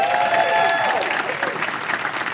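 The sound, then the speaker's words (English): An audience in a room applauds a team with dense, steady hand clapping that stays loud and continuous from start to finish. “Let's give our team a big hand clap.”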